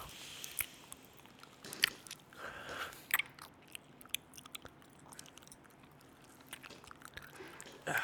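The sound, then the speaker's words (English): Quiet chewing and crunching of Sour Patch candy, with many small irregular bites, crunches and soft squishy mouth sounds and no talking. “Enjoy some Sour Patches with us. Yeah. If you got a bag next year, crack them open. Let's have a nice little fucking ASMR journey together.”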